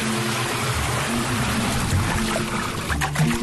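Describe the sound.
A thin stream of running water, kept low to save water while bathing, gives a steady, continuous hiss that holds at an even level throughout.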